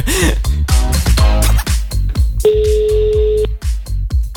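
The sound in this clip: A telephone tone sounds for about one second while a phone number is being dialled for a call. It plays under lively overlapping voices that continue before and after it.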